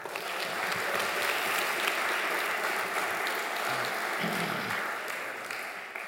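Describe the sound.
Warm applause from a church audience welcoming a guest speaker before his morning sermon on Jonah chapter 4: steady, loud, continuous clapping filling the whole stretch and easing slightly at the end.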